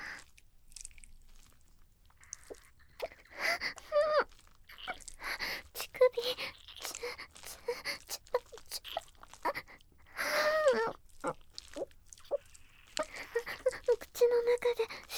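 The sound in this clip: Wet sucking and smacking mouth sounds in an ASMR role-play imitate a baby nursing. They come in close, irregular bursts, with soft moaning vocal tones in between.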